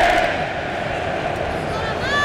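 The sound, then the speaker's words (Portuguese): Norwegian football fans perform their Viking rowing chant and shout in the stands of a World Cup match stadium in Dallas. The crowd gives a loud, sustained roar that holds steady throughout. “E os Vikings voltam a fazer o seu espetáculo nas arquibancadas em Dallas. E a remada e aquele grito, né?”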